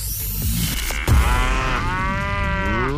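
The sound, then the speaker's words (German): A cow moos, used as a radio contest signal sound: a drawn-out, loud lowing with rich harmonic overtones that swells midway and carries to the end, heard alone. “Achtet einfach auf das Enjoy Mu Geräusch bei uns im Radio, das ist das hier.”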